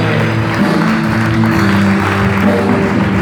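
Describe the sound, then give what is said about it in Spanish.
A church audience applauds in a steady, continuous wash of clapping that holds at an even loudness throughout. “Dale un aplauso.”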